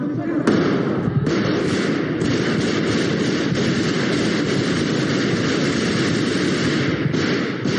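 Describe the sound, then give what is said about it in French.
Gunfire erupts in a parliament chamber as soldiers storm in, many rapid shots blurring into a loud, steady roar of noise, with a few sharper cracks standing out early, sustained throughout. “Des tirs durant une dizaine de secondes et les députés disparaissent tous sous leur siège.”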